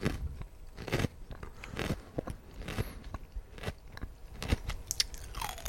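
A carrot is bitten and chewed, giving many crisp, sharp crunches and snaps in an irregular rhythm. The crunching is clear and alone, with no talk.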